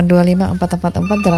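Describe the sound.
A telephone rings on a radio call-in line before the call is answered, a repeating electronic ringing tone with a voice talking over it.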